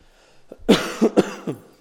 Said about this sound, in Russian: Я иногда буду кашлять, братья, вы к этому снисходите. У меня же какая-то немощь, уже полгода кашляю.